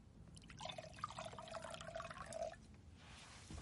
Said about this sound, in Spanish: coge la botella y se dirige hacia ella. Es una mujer morena de unos 40 años con los ojos marrones y la piel clara. Le sirve el vino.